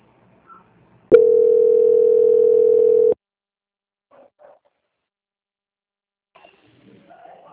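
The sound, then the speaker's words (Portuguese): A telephone line tone plays while a call is transferred: one steady, loud, mid-pitched buzzing tone lasting about two seconds, followed by a few faint, brief sounds and quiet. “peço que aguarde em linha, que vou transferir o contato da senhora para o setor de qualidade”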